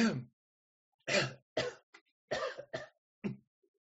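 A person clears their throat over and over in a series of harsh, rasping bursts. There are several short hacking pulses of uneven length, heard alone with no talk.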